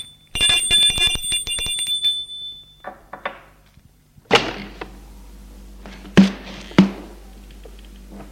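A doorbell rings at a residence on a hillside, a bright, buzzing tone lasting about two seconds. Afterwards come a few sparse, sharp clicks and thumps, and no voices are heard.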